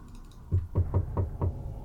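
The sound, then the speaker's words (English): Five knocks on a door come in a quick, slightly uneven sequence. They are dull, low thuds, fairly soft, with no voices. “And you can knock on the door.”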